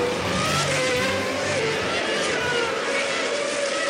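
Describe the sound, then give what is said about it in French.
A Formula 1 race car overtakes with a loud, high engine whine and a steady roar that holds throughout. “Dann Achtung, der Angriff. Und da ist Verstappen vorbei.”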